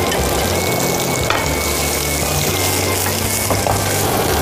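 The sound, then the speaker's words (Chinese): Loud, dense sizzling of food deep frying in hot oil over high heat until crispy, a constant crackling hiss with no pauses and no voices. “要开大火。 最后一次了，对吗？ 对， 这次是要让它炸到 外面酥脆， 酥脆，同时不吃油。”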